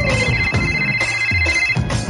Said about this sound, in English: Let's call her. It's ringing.